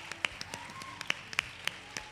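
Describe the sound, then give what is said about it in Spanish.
Sparse clapping from a small audience at a women's sport event, heard quietly: scattered sharp claps, a handful standing out above a soft, uneven patter. “Un aplauso para ella, por favor, chicos.”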